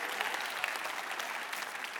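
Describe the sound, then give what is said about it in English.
Audience hand clapping during a Christian gospel sermon: a dense, steady patter of many hands, moderately loud and even throughout with no clear gaps between claps. “Come on, we almost got a hand clap there.”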